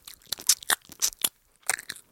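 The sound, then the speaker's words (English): Chewing and eating honey baked ham, with several crunchy, moist mouth bursts in an irregular rhythm separated by brief quiet gaps, close and fairly loud, with no talking. “That's us eating honey baked ham.”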